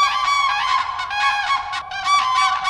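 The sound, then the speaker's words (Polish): Common cranes trumpet in a loud chorus of many overlapping, bugling calls as the birds land in shallow lake water amid morning mist and begin their dance; the calling runs on without pause and no one speaks. “Słyszymy ten piękny żurawi klangor.”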